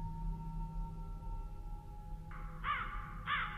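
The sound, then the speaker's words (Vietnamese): Crows cawing, a few harsh, grating caws that arrive in quick succession near the end, above a steady low hum. “văng vẳng từ bốn phía vang lên tiếng quạ kêu đến gai cả người.”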